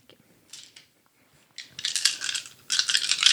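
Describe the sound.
Dice clatter across a surface during a tabletop roleplaying game of Little Fears: one short rattle first, then a longer run of bright tumbling clicks, and a final burst of rolling clatter.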